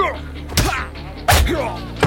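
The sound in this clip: Three heavy thuds of punches and a headbutt in a fistfight land at an uneven pace, each a dull, low-pitched impact with a brief slapping edge.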